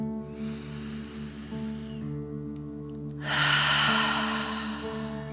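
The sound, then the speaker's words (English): Deep breathing in and out in imitation of a fire-breathing dragon: two long, airy breaths, the second louder and harsher, over a soft, sustained musical drone. “pretending you are breathing fire. Ready? Deep dragon breath in and out.”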